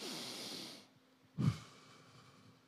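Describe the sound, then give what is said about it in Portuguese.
A deep breath in and out: soft, airy breathing with a brief, louder rush of air midway, faint and heard alone without talk. “Você pode respirar fundo assim? Eu sei que com a máscara é difícil, mas fazer assim.”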